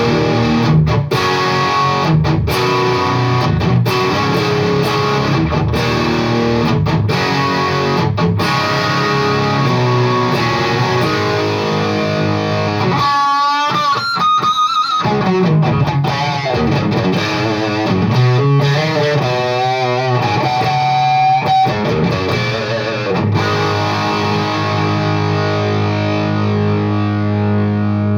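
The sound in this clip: An overdriven tone with the gain turned midway up gives saturated, crunchy distortion. Dense, sustained chords and riffs play continuously and loudly.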